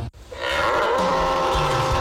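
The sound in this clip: A bull bellows in one long, deep, loud moan that holds steady for about two seconds, heard alone.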